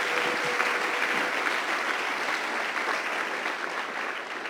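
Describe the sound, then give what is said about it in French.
Loud, steady applause from an audience during a bilingual church sermon. Dense clapping continues without a break for about four and a half seconds. “J'aimerais qu'on l'acclame très fort avant de terminer.”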